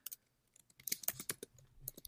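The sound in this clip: Keys on a computer keyboard clack as someone types to look something up, a few sparse taps at first, then a denser run of quick, irregular clicks, faint and without talk.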